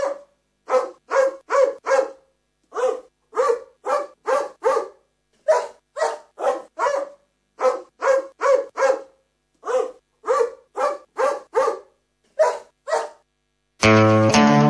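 A dog barks many times in sharp, loud bursts grouped in quick clusters of two to four with short silent gaps between, and music starts abruptly at the very end.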